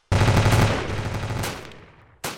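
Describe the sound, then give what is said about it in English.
A rapid burst of gunshots pours out in a loud stream that gradually weakens over about two seconds, then a fresh burst erupts at the very end. “Just shoot already!”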